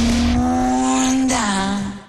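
A Honda motorcycle engine revs in a loud, steady, buzzing drone with strong harmonics. The pitch holds, then dips slightly and trails off at the end.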